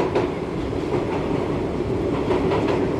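A New York subway train runs with a steady, dense rumbling roar and faint rhythmic rattling of wheels, continuous and even in loudness, with no voices.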